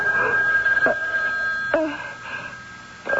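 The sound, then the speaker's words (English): A telephone rings in a radio drama scene, a steady electronic ringing tone that runs throughout, with a few sharper bursts recurring at intervals over it. “What, oh, it's a phone. Phone.”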